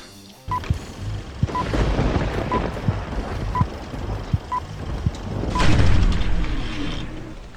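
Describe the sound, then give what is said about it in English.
A movie trailer plays, with high beeps recurring about once a second over deep booming hits, swelling into a louder rumbling surge near the end before easing off. “The trailer is playing now. I should shut up then.”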